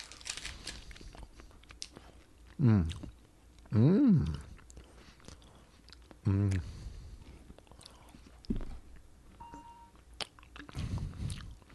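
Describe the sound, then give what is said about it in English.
Someone chews and bites a Quest Bar protein bar close to the microphone, soft, wet, crunchy mouth noises broken by a few louder vocal bursts, with quiet voices in the background. “Here we go. Rich Voss eating into the mic.”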